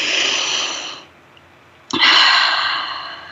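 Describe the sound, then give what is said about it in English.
A deep breath is drawn in: a long airy hiss, then a short silence, then a second, louder breath with a sharp, noisy onset that slowly tapers off. “Let's breathe that in.”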